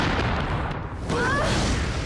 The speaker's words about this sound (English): As the fiery explosion erupts, they go flying through the air.